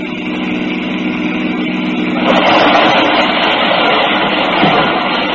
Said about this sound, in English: The getaway car slewed around and headed back the way it had come